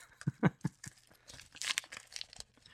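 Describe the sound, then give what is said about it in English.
Paper tearing and crinkling as an envelope is opened, a few sharp rips at the start followed by scattered rustles and crisp crackles of varying loudness. “Wow, he really does have He's the mail. Actually opening an envelope.”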